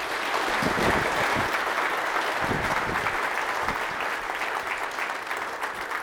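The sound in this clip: Audience applause at a Calvary Chapel service welcoming a speaker to the stage, a dense, steady clapping from many hands that holds at an even, fairly loud level throughout.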